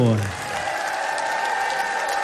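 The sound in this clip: Audience applause at a live radio show in Marietta on the banks of the Ohio River: sustained, dense clapping and crowd noise holds steady throughout, with a voice briefly heard at the start.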